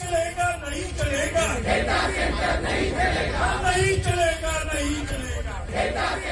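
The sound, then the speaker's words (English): A protest crowd in India chanting against data centres: many voices shout rhythmic phrases in unison, loud and continuous, over a dense murmur of the crowd. “And we are seeing protests, aren't we, Will, across the world. I've just come back from India, and you hear lots of sounds like this.”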